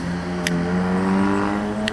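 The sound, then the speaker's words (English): Car traffic passes on a busy city street: a steady low engine drone and tire hum runs throughout at moderate level, broken only by two short, sharp ticks. “this street's a little bit busier, so there's a little more traffic.”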